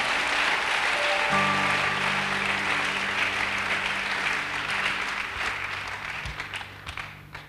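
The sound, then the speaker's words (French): An audience at a church service applauds with dense, steady clapping that carries on throughout and thins out slightly toward the end. “acclamons le Seigneur encore”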